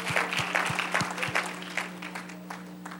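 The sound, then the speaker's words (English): A church audience clapping hands in praise: a run of regular, rhythmic claps that loosens into scattered applause, over a sustained low tone. “Let's give Jesus a great big hand clap of praise tonight.”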